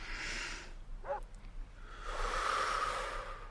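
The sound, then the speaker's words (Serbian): Deep breathing from the belly by a nervous person being calmed: a long, airy breath, a short pause with a faint vocal sound, then a second long, hissing breath. “Udahni. Ne, ovako, iz stomaka.”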